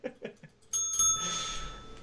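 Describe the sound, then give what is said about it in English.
A bell is rung, giving a bright, sustained ringing tone that lingers for over a second after a few short voiced sounds at the start. “Ring the bell.”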